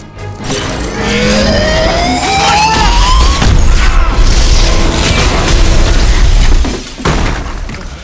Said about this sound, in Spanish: Ah, le explotaron el, el minimarco.